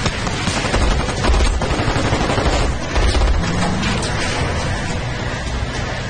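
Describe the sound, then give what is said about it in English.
Gunfire from masked soldiers aimed at a truck as it drives away, bullets striking the truck: dense, continuous rapid bursts of shots with a heavy, rumbling texture, loud and unbroken, with no voices. “Masked soldiers fire at the truck from the rubble of the warehouse. Bullets ricochet off of the truck as they drive away.”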